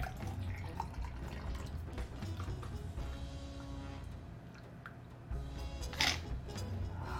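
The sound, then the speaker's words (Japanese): Liquid trickles and drips as an almond milk cocktail is poured through a strainer into a glass, a steady wet pour with a brief louder splash toward the end. “アーモンドミルクのでしっかりとシェイクしましてそしてここにストレーナーこすやつをかぶせてグラスに注いでいきます”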